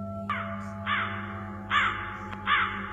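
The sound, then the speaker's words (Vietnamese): A flock of crows cawing over a graveyard after rain: four harsh, rasping caws spaced at fairly even intervals, standing out over a steady low background hum. “Văng vẳng đâu đó có tiếng bầy quạ kêu ráo rác.”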